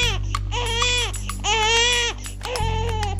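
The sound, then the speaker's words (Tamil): A baby cries in a few high-pitched wailing bursts, loud and strained with short breaks between them, over a faint steady low hum. “குழந்தையோட அழுகை சத்தம் கேட்டுட்டே இருந்துச்சு.”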